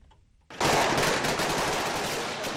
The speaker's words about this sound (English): It's the sound of Somali security forces fighting al-Shabaab militants in Mogadishu Thursday night.